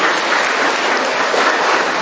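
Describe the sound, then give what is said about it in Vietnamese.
Applause from a church audience greeting a Buddhist woman: a dense, steady wash of many hands clapping that holds loud and even throughout, with no voices over it. “Một người đạo Phật vào trong nhà thờ, chúng ta cho một tràng pháo tay chào người chị em này.”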